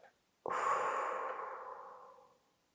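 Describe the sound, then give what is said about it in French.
Deep relaxation breathing during a sophrology session for pain management: one long, steady breath out begins abruptly, stays strong, then gradually fades away. A faint, soft intake of breath comes before it. “On y va, on inspire et on souffle.”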